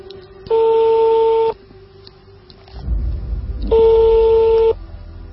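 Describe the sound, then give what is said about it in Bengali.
An outgoing phone call ringing on the caller's end: two steady electronic ringback tones, each lasting about a second, separated by a pause filled with low rumbling noise. “আমি সেজানকে phone দিতে চাই”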